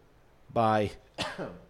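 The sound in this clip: A stifled cough and throat clearing come from a person who keeps trying to cough while talking. Two short, rough voiced bursts are heard alone, the second one briefer and weaker than the first.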